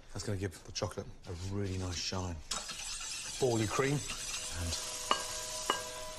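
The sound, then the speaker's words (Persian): Heavy cream and honey are stirred in a deep pan, a steady scraping hiss with a sizzling edge that rises after a voice talks at the start. Two sharp clicks come near the end. “300 میلی لیتر خامه غلیظ تو مایتابه گود میریزیم و 2 قاشق عسل بهش اضافه میکنیم و خوب هم میزنیم تا عسل حل بشه.”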